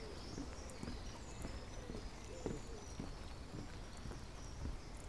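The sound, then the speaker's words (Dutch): Footsteps crunching over a gravel path and across a small bridge into a garden, a steady walking rhythm of many soft, evenly spaced steps, faint against a constant background hiss. “Over het grindpad en over het bruggetje loop ik de tuin in.”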